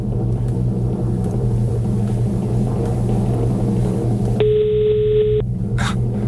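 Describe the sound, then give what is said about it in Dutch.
A telephone gives a single steady electronic tone lasting about a second. It sits over a constant low rumbling hum, with no voices. “Zal ik maar gewoon bellen? Ik heb het nummer van jou gekregen.”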